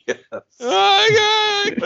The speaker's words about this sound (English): And she dramatically runs away and lets out this wail.